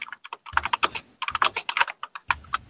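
Fingers type on a computer keyboard in irregular bursts of quick, crisp clicks separated by short pauses, with no voices.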